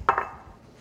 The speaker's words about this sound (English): Just stir it up. It turns a really nice kind of light pinky color. This is good stuff. Okay, scoop this into a ramekin.